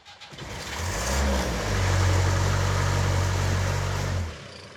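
A car engine that smokes on starting and leaks oil runs at idle: a steady low hum with a slight early rise in revs, holding for a few seconds before it stops.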